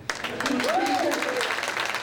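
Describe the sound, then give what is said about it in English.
An audience breaks into applause with a sharp onset, then continuous dense clapping, while a single voice cries out briefly over it near the middle. “So maybe you don't really want to clap for Rabbi Zuck because a lot of people come up to me and say, oh, I miss you so much on the radio. But if you hear my story, you'll see why he definitely does deserve a round of applause.”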